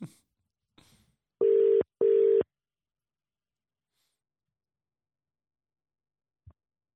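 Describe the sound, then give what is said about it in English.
Two steady, mid-pitched telephone ring tones sound loudly in quick succession as a call is placed, each lasting about half a second, followed by silence. “So uh, we'll we'll call him now.”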